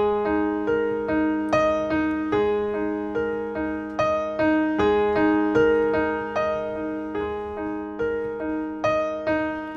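Piano intro of four repeated measures, an A-flat below middle C in the left hand struck with the A-flat above in the right, sustain pedal down: many ringing notes in a steady rhythm, each decaying and blurring into the next.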